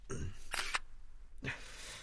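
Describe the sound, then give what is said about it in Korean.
Camera shutter clicks while gas cylinders are photographed on a balcony: a green oxygen tank and a small LPG tank. A few sharp, crisp bursts stand out over a low, murmuring background. “일단 찍을게.”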